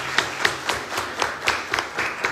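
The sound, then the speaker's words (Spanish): Audience applause at a quiz competition, a thin patter of hand claps with a few sharper individual claps standing out at an uneven rhythm, moderately loud and with no voices over it. “Un aplauso también para su compañera.”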